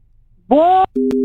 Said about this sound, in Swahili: Mtu wa mayai simu yake imekatika, amesema nini?